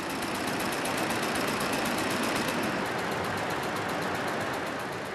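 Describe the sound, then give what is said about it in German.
A textile machine tying warp threads together knot by knot in fabric production, a loud, unbroken mechanical whirr with a fast, even ticking pulse running throughout. “Faden für Faden muss verknotet werden. Das übernimmt diese Maschine. Früher war das noch Handarbeit.”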